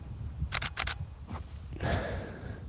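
Camera shutter clicks as a photo of a cave is taken: a few sharp clicks in quick pairs, a lone softer click, then a longer noisy mechanical burst, all fairly quiet.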